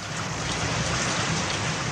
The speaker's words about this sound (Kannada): ಮೋಡಗಳು ಒಟ್ಟುಗೂಡಿ ಗುಡುಗು ಮಿಂಚು ಸಹಿತವಾದ ಮಳೆ ಭೂಮ್ಯಾಕಾಶಗಳನ್ನು ಏಕಗೊಳಿಸುವಂತೆ ಸುರಿಯಲಾರಂಭಿಸಿತು.